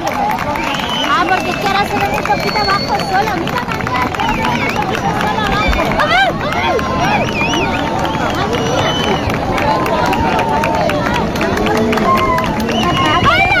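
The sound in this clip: A large crowd on the Playa de la Victoria in Cádiz reacts at the maximum of a solar eclipse with continuous loud cheering, shouts and excited chatter from many voices, steady throughout.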